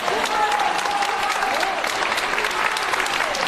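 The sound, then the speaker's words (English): Crowd applause and cheering outside a courtroom, dense continuous clapping with raised voices and shouts mixed in, steady and fairly loud throughout. “That's the sound of people clapping and cheering as Pélicaud came out of the courtroom last week.”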